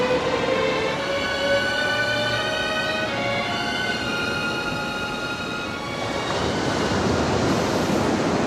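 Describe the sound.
Ocean waves break on a beach with sharp reefs, a steady, broad rushing wash with no clear pauses that swells slightly louder toward the end.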